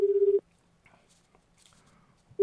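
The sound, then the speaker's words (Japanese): Ringback tone of an outgoing call to a mobile phone: a steady, warbling mid-pitched tone sounds briefly at the start, then a long near-silent gap with faint background noise before the tone returns at the very end. “出るかな。 さあ どうでしょうか。 ただいまコールしております。”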